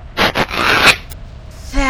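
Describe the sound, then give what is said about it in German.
A few harsh, rasping rips as armour or a dress is torn: two short bursts, then a longer grinding scrape, followed by a brief tonal sound at the end. “und jetzt noch Rüstung zerreißen.”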